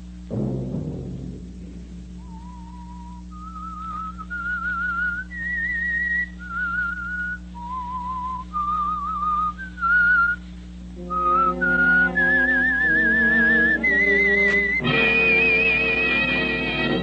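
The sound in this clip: A lone whistler carries the theme of the old-time radio show The Whistler, a slow melody of clear, held notes, later joined by sustained instrumental tones beneath the tune as it ends.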